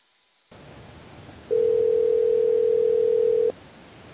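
A telephone tone sounds alone as a single steady, mid-pitched note lasting about two seconds. It begins after a faint hiss and cuts off cleanly, with the hiss continuing afterward.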